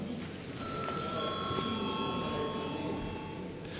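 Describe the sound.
A parliament session bell rings in the Latvian Saeima to call members before a vote. It is a steady electronic tone that sustains evenly across the whole stretch over a low background hum.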